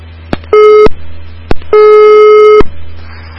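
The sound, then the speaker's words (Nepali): Telephone busy tone after a dropped call connection: two loud, steady, buzzy pitched tones, the second longer than the first, each preceded by a sharp click. “कोही हुनुहुन्थ्यो हाम्रो telephone सम्पर्कमा, उहाँसँगको सम्पर्क टुटेको छ।”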